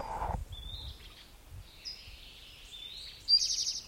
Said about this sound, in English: I don't see the bird yet. Western tanager in the background.